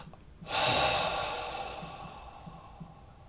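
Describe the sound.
A long, forceful breathy exhale during a guided breathing exercise, starting abruptly and then tapering off slowly, heard alone without talk.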